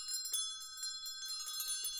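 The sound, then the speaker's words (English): A house bell rings on and on, its bright, sustained tones carrying through repeated strikes with no pause. “It swung so softly in the outset that it scarcely made a sound. But soon it rang out loudly,”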